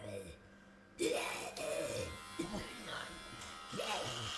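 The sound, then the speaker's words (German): An electric razor shaves a patient's head with a faint, steady buzz, while a voice talks over it. “Private Barker beginnt damit, dem Patienten den Kopf zu rasieren.”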